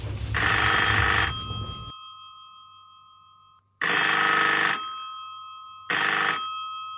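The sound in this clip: A telephone rings with an incoming call in three bright electronic bursts separated by silence. The first burst is the longest and the last is cut short.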